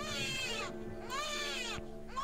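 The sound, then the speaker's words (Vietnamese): A newborn baby crying in long, drawn-out wails that waver in pitch, a few cries in a row with short breaks between them, with no other voices. “Bỗng nhiên tôi nghe có tiếng trẻ sơ sinh khóc văng vẳng lên đâu đó.”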